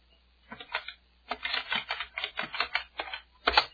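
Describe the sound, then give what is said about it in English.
Keys clatter on a computer keyboard as the su command is typed in a terminal to switch to root, a few short bursts of quick, crisp clicks separated by brief pauses. “So now I will type su to switch to root.”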